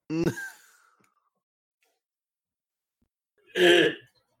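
Two breathy, raspy wheezes about three seconds apart: the first is short and voiced with a thin fading whistle trailing off, the second a louder, hoarser rasp, with silence in between.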